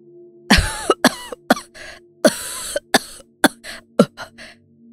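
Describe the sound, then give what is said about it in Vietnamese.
A man coughing and choking after nearly drowning: many harsh, loud coughs in uneven bursts separated by short gaps, with no talk. “Ông Chánh ho lên sặc sụa”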